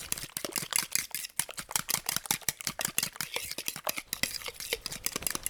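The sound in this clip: A fork beats eggs and sugar together in a bowl, making many rapid, crisp clicks and taps in a quick, fairly steady rhythm, with no talking.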